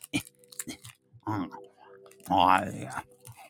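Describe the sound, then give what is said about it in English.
Opening and eating a teeny Twix candy bar in the middle of the night: quiet wrapper crinkling and crunchy chewing in a few irregular bursts, with soft breathy vocal sounds between them. “I'm going to eat a teeny tiny Twix at 3:53 in the morning because I am a professional. I also am lacking dexterity, so I'm struggling with opening this.”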